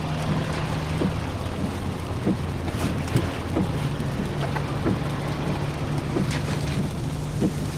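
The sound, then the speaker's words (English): Car ride home in the rain: a steady, low interior rumble and road noise with a soft wash of rain and scattered faint ticks, continuous and unbroken, with no talking. “This is the sound of your ride home with Dad after he caught you vaping.”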